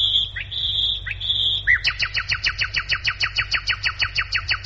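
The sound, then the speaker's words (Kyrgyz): Birds singing in a city gone quiet during lockdown, with no traffic or crowds: a few long, high whistled notes, then a rapid, even trill of many bright, descending chirps repeating steadily to the end. “Бул сайраган куштар.”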